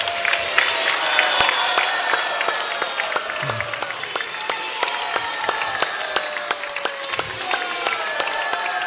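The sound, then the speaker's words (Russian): Standing ovation at a devotional religious gathering: sustained, many-handed applause with sharp individual claps standing out, holding steady and loud for several seconds. “поздравить его, встать и поаплодировать его стоя. Овации.”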